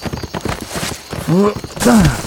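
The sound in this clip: A horse whinnies twice in short, bright calls over a busy clatter of hooves, the second whinny slightly louder than the first.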